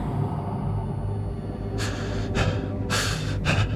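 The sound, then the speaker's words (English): Panicked, ragged breathing: a few harsh, gasping breaths break in over a low, steady rumble during the second half, each one rough and uneven. “breath was panicked and ragged. It was all too much.”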